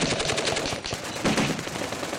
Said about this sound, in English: you had two squads and then two machine gun teams directly across from this guy, all opening up at the same time.